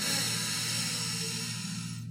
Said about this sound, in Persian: بزرگترین نفسی که امروز کشیدی، دم، همه با هم